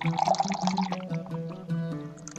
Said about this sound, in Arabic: بس صب لي كاسة مية. ولا يهمك، أي أحلى كاسة مية.